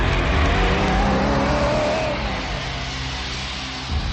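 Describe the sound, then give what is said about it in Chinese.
Car engine revving as the vehicle drives away, a loud, steady motor drone with a wavering whine that eases slightly toward the end. “黑木慈说完，开车走了。”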